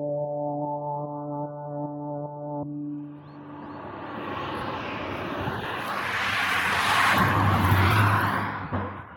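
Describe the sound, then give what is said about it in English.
Car engine and road noise while driving up a long straight road between fields. A steady tonal hum at the start gives way to a broad rushing roar that swells louder before easing off at the end. “I'm driving up a long straight road with fields on either side”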